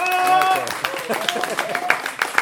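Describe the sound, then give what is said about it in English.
A round of applause from an audience at a Trinity College event begins under a speaking voice, then turns into scattered, uneven claps with a few sharper accents. “Can we have a round of applause for”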